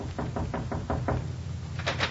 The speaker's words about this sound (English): knocked on the medical officer's door.